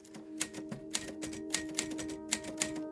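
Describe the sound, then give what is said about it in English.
Typing on a typewriter: a short, irregular run of sharp key strikes, faint overall, with a few louder clacks standing out against a low steady hum. “I typed them down. He gave his answers and I typed them down.”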